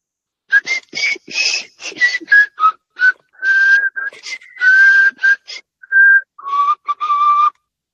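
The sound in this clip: A person whistles an ice cream truck tune as a loud, solo string of short chirped notes and longer held tones, broken by brief pauses.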